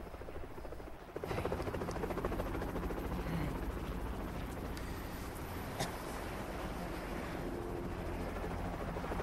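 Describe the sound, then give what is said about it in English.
Helicopter noise during a rescue, with a stretcher about to be lifted. A loud, steady rotor and engine drone starts after about a second and holds level to the end, with no talk. “is trapped into a stretcher and is about to be lifted by the helicopter.”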